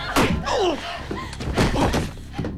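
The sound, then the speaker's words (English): A baseball bat smashing against a man's head: a few dull, heavy thuds break through, with voices in between. “Karen sneaks up behind Chip and smashes him around the head with a baseball bat.”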